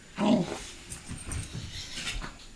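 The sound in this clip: A dog growls and whines while playing, with one strong, throaty growl near the start followed by quieter rumbling and whimpering sounds.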